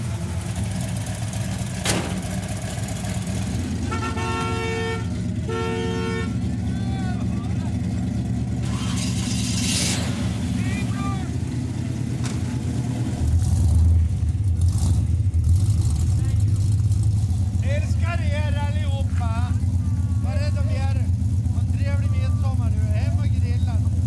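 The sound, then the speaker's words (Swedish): Chrysler car engine running with a low, steady rumble that grows louder and heavier partway through, as when the car drives off, with people talking over it. “Nu åker vi. Det finns ingen bil som har sånt ljud som en Chrysler.”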